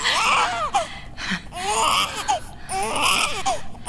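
A newborn baby boy crying just after birth, with repeated high, wavering wails in several loud bursts separated by short breaths.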